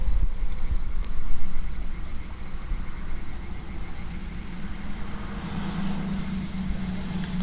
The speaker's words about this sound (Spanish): de fondo también escuchamos cómo pasan los camiones del puente que hace vibrar todo el paisaje